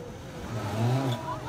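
Off-road rally cars reach the finish line of a race, their engines forming a low, steady rumble that swells slightly through the short moment.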